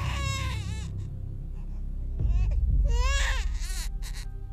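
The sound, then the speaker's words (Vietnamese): A child cries shrilly in a few high, wavering wails broken by short pauses, loud and piercing. “Bên tai của mụ là tiếng trẻ con khóc choe choé, nghe đến giận cả người.”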